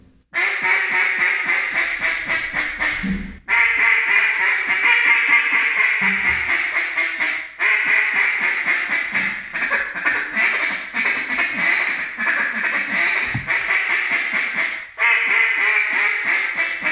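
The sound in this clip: A small-bore single-reed duck call is blown in loud, rapid strings of raspy quacks. Several bursts are separated by short pauses, with no talking over them.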